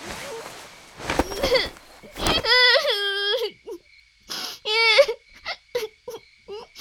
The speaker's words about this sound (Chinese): 先生，他走了。你还看？ 怎么哭了？